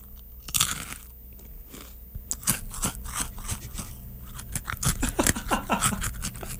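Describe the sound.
Close crunching and chewing of a pizza pretzel, with many crisp bites and wet mastication clicks in an irregular rhythm, fairly loud and intimate, with no talking.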